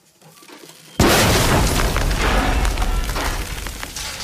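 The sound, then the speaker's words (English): An explosion in a mine shaft: after a short, quiet lead-in, a sudden heavy boom bursts out and gives way to a loud, sustained rumbling roar that stays strong to the end. “The mouth of the mine is engulfed in thick yellow smoke. The miner, thrown back a little by the explosion, waits for the smoke to clear and steps back towards the shaft.”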